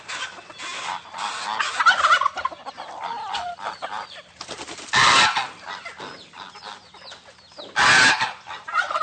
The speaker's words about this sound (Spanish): Estamos en aquí afuera de un gallinero, por acá, por San Pedro. Y me estoy acercando porque quiero hacerle unas preguntas a una gallina.